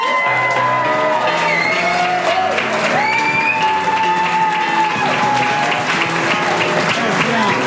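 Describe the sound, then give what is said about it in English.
A crowd at a live fan convention applauds and cheers, with loud, continuous clapping joined by whoops and shouts, holding at a steady high level throughout. “Stand up, everybody, and put your hands together for Dave.”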